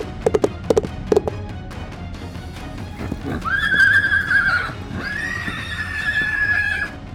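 A horse neighs after stopping dead in front of an oncoming ATV; a few sharp hoof-like taps come first, then two long, loud, high whinnies follow one after the other.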